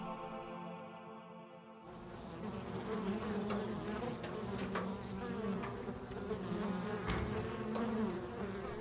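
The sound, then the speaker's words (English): Bees buzz in a beehive in the rafters of a house, a continuous humming drone that starts quieter and then swells to a fuller, steady buzz with small fluctuations. “There is a beehive in the rafters of our house, and I can hear it all the time.”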